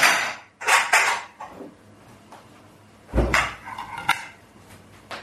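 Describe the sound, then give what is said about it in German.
Plates are set out during meal preparation with a few clattering knocks of crockery, separated by quiet gaps. “Können wir schon mal äh, Teller hinstellen für nachher.”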